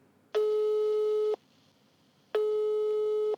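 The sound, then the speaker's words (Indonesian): A telephone busy signal sounds after a call is dialed: two identical steady electronic tones, each about a second long, separated by a one-second silence, clear and alone. “coba gue telepon nih.”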